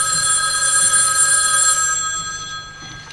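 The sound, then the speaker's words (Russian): A telephone ringing as a call is placed to a pharmacy: one steady, bright electronic ring that holds, then fades out near the end. “А затем поднесли трубку к колонке и позвонили в эту аптеку.”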